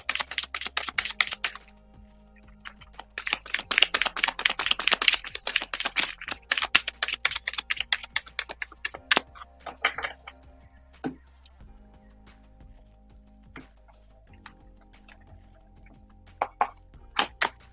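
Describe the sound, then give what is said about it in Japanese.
Oracle cards being shuffled and drawn, heard as bursts of dense, crisp clicking and flicking, followed by sparser separate taps and snaps, with no voices. “かおりさんの、オラクルカードを引いていきますね。お待ちください。”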